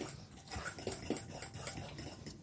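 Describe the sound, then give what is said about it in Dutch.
A spoon stirs flour into a runny batter to work out lumps, giving many quick scraping clinks against the bowl in an uneven rhythm, fairly faint and without talk. “Dus nu, ik roer die bloem daar heel goed door, zodat we geen klonters hebben.”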